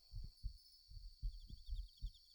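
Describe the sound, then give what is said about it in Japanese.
A pounding heartbeat of many low, muffled thuds in a quick, regular rhythm, faint overall, with a thin, steady high tone running beneath it throughout. “そういう私も、今結構ドキドキしてるんだけどね。”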